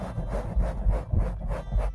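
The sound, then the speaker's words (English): A pop filter on a Blue Yeti USB microphone is rubbed in a few repeated scratchy, swishing strokes, each a soft rasping surge at a steady rhythm, with no talking over it. “if I rub this shit, I have a pop filter on this motherfucker. If I rub this, tell me how this sounds.”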